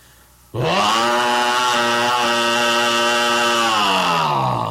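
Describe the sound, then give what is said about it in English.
A chainsaw in a comedy sketch catches and fires up abruptly, its engine settling into a loud, steady buzzing drone before the pitch drops near the end. “You can have your chainsaw. I broke my back with the damn thing. The weight of it almost killed me, and I only cut 2 cords the whole week. Well, just a minute. Let me start it up.”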